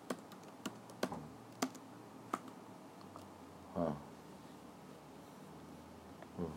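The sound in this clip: Keys on a computer keyboard tapped while someone looks up a poetry website: a few sparse, faint clicks spread across the stretch, with one brief, slightly louder rattle partway through.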